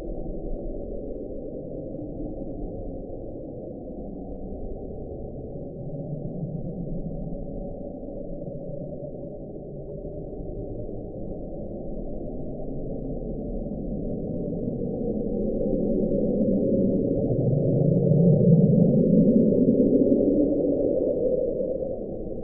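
The Bloop, a low underwater sound recorded in 1997, is played sped up 16 times. It is a long, dense rumble that swells toward the end, where a clear tone rises in pitch.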